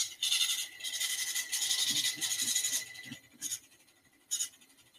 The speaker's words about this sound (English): When you do that, this machine will produce what is called a zero total tape. The machine is going through a self-test analysis, and then it'll spontaneously turn on.